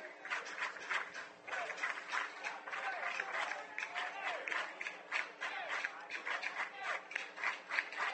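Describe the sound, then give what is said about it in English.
Minster baseball fans cheering and whooping at a district championship game against Crestview, a continuous murmur of many voices with scattered whoops, fairly faint beneath a man speaking over it. “Minster crowd whooping it up. You can hear it in the background.”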